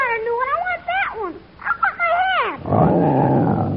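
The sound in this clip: Lion at a zoo growling and snarling while chewing on a hat in its cage: a run of rough, wavering vocal growls that rise and fall, then a longer, lower, noisier snarl, loud throughout.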